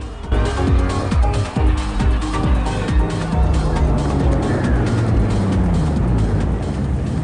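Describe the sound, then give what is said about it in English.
Car engine as the vehicle rolls slowly through a gathered crowd and pulls up beside parked cars, a loud continuous rumble with shifting engine tones throughout. “Brian drives slowly through the gathered masses and pulls up next to a small caravan where several of Dom's crew's cars are parked.”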